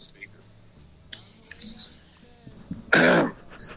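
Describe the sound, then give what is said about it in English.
A single loud, rasping throat clearing by a person doing a character impression, after a stretch of faint breathy mouth noises and soft murmurs. “The clearing the throat was just...”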